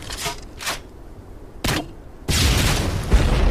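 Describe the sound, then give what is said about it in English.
A grenade launcher firing, as a sound effect, gives a few sharp, loud booming bursts separated by short gaps. A longer, sustained rumbling blast follows and lasts to the end. “Ain't nothing to launch grenades with like a grenade launcher”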